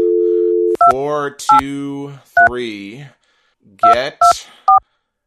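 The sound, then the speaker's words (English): Telephone keypad tones sound as a number is dialed on a phone dialer. A steady dial tone gives way to six short, bright beeps at uneven intervals, with warbling voice-like sounds between some of them. “I'm going to just bring up the dialer here. And we are going to dial”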